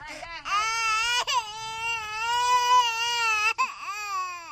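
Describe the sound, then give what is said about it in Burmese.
A small child wails in a village while its mother pulls it along, in one long, steady, high-pitched cry broken by two brief catches of breath. “ကျန်းကုန်မြို့နယ်ကံကလေးကျေးရွာအုပ်စုကကျေးရွာတစ်ခုမှာတော့ငိုနေတဲ့ကလေးငယ်ကိုသူ့အမေကအတင်းဆွဲခေါ်နေပါတယ်။”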